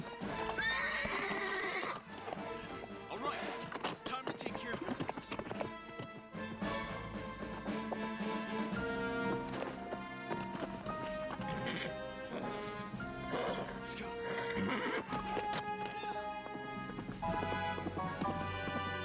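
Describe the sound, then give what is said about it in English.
A horse whinnying with hooves clip-clopping, the neighs recurring over steady, rhythmic hoof beats. The sound stays loud and busy throughout, with no pause. “When did he have a horse?”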